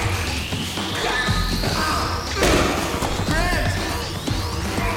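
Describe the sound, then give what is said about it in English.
A bottle smashed over a man's head during a fight: one sharp, loud crash lands midway through a dense, noisy struggle. “Lethan flings bottles at him, smashing one over his head. Lethan kicks Grant in the face.”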